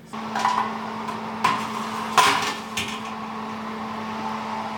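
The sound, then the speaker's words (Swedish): A cake being put into the oven: a few soft clunks and knocks over a steady low hum. “Nu ska den ju in i ugnen.”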